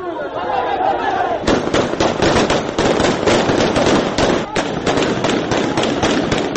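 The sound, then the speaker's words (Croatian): Police gunshots fired into the air during a street protest in Karachi near a consulate: many rapid, sharp bangs in a dense, irregular burst that begins after a stretch of loud crowd noise, with the crowd still roaring beneath. “Tako je izgledalo kada su demonstranti probili policijske barikade u Karačiju i krenuli ka konzulatu pre nego što je policija počela da puca prvo u vazduh”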